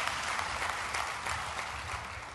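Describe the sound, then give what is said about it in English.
Audience applause fills a church: dense, steady clapping from a large crowd holds at an even, loud level for the full two seconds with no pause. “Now, that's worth clapping for, isn't it?”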